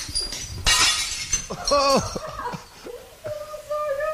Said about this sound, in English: It's essentially a giant cupboard full of smashed plates.